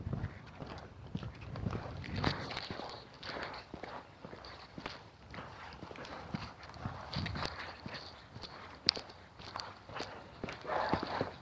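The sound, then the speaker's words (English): Faint footsteps of an old man on a morning walk, many steps falling in a steady, even rhythm throughout. “Another old guy out for his morning walk.”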